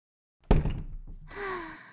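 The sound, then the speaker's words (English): A door closing in a big office: one solid thud at the shut, followed by a short, fading rumble. “Yeah, I'll close the door.”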